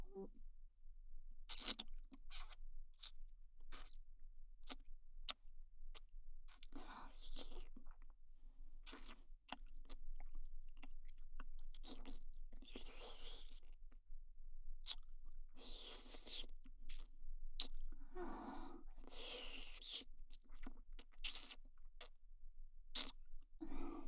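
Soft, wet mouth sounds of chewing, biting and smacking come in many quick bursts, quiet and close, with short pauses between clusters and no talk.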